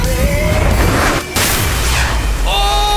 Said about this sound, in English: All right, Dragonite, Dragon Rush!